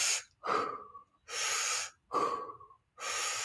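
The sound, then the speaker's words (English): Full, deep breaths in a breathwork demonstration: five forceful breath sounds in a steady, evenly spaced rhythm. Some are broad, airy rushes and others are tighter, with a faint whistling edge. Short silent gaps separate them. “So it's basically you just take full deep breaths in. So it sounds like this.”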